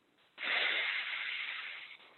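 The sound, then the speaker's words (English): One long, deep inhale during a breathing exercise: a steady, airy rush that swells abruptly, holds for about a second and a half, then eases off slightly before stopping. No voices accompany it. “As we inhale, we're going to envision it glow even brighter. Inhale,”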